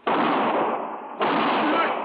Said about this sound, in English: You shot my husband.